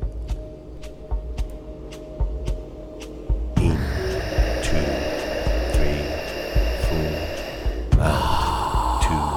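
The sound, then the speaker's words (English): Deep, calming breath sounds from a guided slow-breathing exercise: soft airy hiss that swells and shifts, with a steady tonal drone underneath and no talking. “continue this breathing cycle for several minutes, consistently, smoothly, following along with the guidance and the recorded breath sounds”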